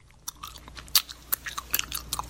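A person's mouth imitates loud ASMR-style chewing, making many crisp, wet clicks and smacks in an uneven rhythm, with no talking.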